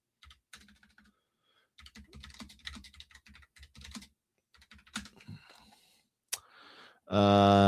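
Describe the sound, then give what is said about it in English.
Typing on a computer keyboard in bursts of quick, light key clicks with short pauses between them, followed by a voice that begins at the very end. “It's always so tough when you type in Dance of the Dragons, because then it brings up the books.”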